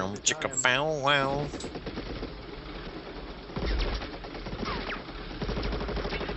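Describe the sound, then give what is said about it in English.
Gunfire in an action movie about commandos. The bursts of shooting are faint and rough, with a few louder clusters, mixed among other film sounds and a brief voice near the start. “Oh, bullets almost hit him. Why can no highly trained commandos ever fucking shoot straight?”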